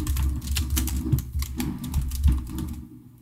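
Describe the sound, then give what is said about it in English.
Keys clatter on a computer keyboard as someone types a search for a social security number, a fast, uneven run of many light taps at a low level with no talk. “can you type in social security number and see what comes up?”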